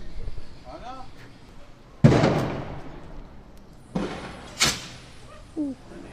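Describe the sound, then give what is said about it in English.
Tear gas canisters fired by the military at stone-throwing youths: a loud booming bang, then a few more sharp bangs and pops, over a low background rumble with faint voices. “They shot gas. That's tear gas.”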